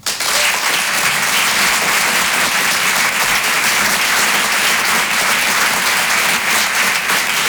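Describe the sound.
A theatre audience in Paris applauds a comedian coming on stage, with loud, dense, steady clapping that lasts the whole time and no voices above it.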